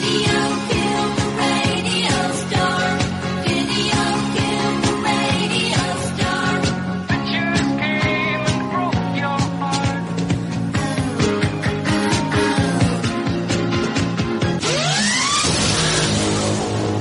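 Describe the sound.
A loud, dense music bumper introducing a best-TV-show-of-the-year segment, playing steadily for about seventeen seconds with layered harmonic tones and a swooping sweep near the end.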